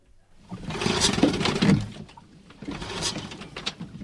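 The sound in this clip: A rented motorboat's engine is started. It gives a rough, roaring mechanical rumble in two loud, sustained surges with a short dip between them.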